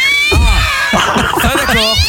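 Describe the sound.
Angry cat yowling as a sound effect: loud, unbroken strained caterwauling whose wavering harmonic wails rise and fall throughout.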